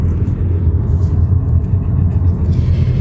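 Low, steady engine rumble of a car driving around Bristol, continuous and fairly loud throughout with no talk over it.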